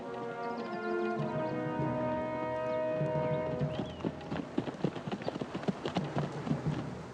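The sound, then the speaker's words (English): Horses' hooves clip-clop as two riders ride up to a colonel's quiet big house, with other horses tied at hitching posts. A sustained tonal sound comes first, then irregular, faint hoof beats clatter steadily to the end. “Several horses are tied to hitching posts in the sun, but no people are about as Dylan and Rose ride up.”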